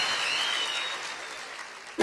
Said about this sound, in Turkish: Alkışlar Orhan Baba'ya gelsin.